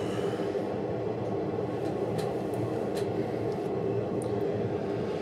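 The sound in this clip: Crowded metro train ambience in India at night: a steady, low rumbling drone of a moving carriage, with a few faint high clicks and squeaks above it and no clear voices.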